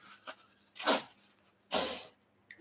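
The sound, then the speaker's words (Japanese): A person blows their nose in two loud, breathy, hissing bursts, each rising sharply and trailing off, separated by a short pause, with no talking. “あ、ちょっと鼻を かかせてくださいと。”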